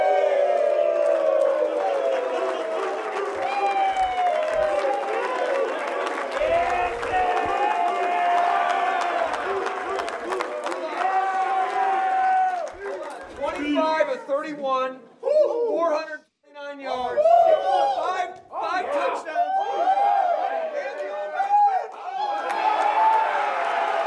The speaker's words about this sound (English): For our radio audience, that's the locker room in Green Bay.